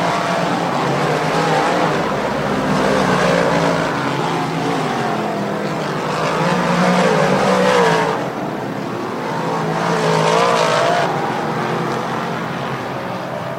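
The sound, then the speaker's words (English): Race cars roar toward the checkered flag in a side-by-side drag race at the finish of a feature event. The engines make a loud, continuous drone that swells and fades a few times, with no voices. “Swartzlander dives underneath Chronister. King's got nowhere to go. Drag race to the checkered flag.”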